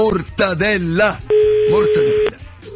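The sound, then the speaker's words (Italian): A telephone dial tone as someone places a call: one steady, even tone lasting about a second, set between bursts of voices. “a questo punto noi andiamo a chiamare una persona, qualcuno al telefono”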